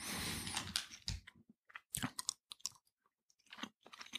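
Chewing on a piece of cheese: a few irregular, moist crunching bites with short pauses between them, heard alone without talk.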